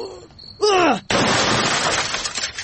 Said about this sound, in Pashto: ولکه څه کوې؟ تلویزیون دې مات که.